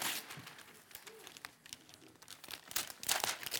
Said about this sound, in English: I'm not very good at tearing off things easy.